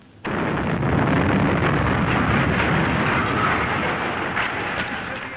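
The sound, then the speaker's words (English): A bomb explosion on a street in Belfast bursts in suddenly and loudly, then gives way to a dense, sustained roar and rumble that carries on to the end with only a slight fade. “A street in Belfast, another bomb.”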